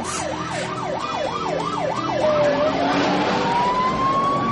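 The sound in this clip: Police car sirens wail in pursuit of a Thunderbird, about seven quick up-and-down cycles giving way to a steady, slowly climbing tone, loud and alone over a rushing traffic-like roar.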